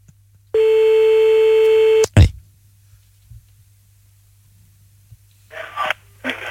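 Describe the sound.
A telephone call rings out as one long, steady, buzzing ringback tone lasting about a second and a half, then cuts off with a loud click as the line is picked up; a few short voice sounds follow near the end.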